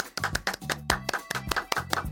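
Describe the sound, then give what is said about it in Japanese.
Rhythmic hand clapping greets the launch of a radio corner on SDGs activities, with many sharp, bright claps in a steady beat over a low tonal backing. “拍手”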